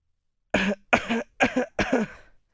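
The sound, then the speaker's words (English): Four deliberate, fake coughs from one person, evenly spaced and moderately loud, heard alone with no talking. “You just hate the fake cough?”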